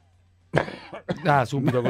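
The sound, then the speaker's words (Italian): A single harsh, throaty cough bursts out after a quiet start, followed at once by a person talking. “Subito, colpo di tosse.”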